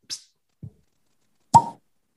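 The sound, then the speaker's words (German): A nearly empty bottle sealed with a dry cork is opened: a brief hiss, then a soft low thump, then a louder hollow pop with a short ringing tone. “Darf ich mal ganz kurz um Ruhe bitten, dass ich mal diese Flasche öffne?”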